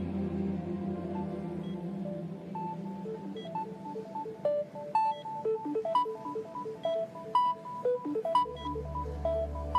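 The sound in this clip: A phone ringtone plays an electronic melody of short, bright notes that step up and down in a repeating pattern over a sustained lower tone, steady and moderately loud, with no voices.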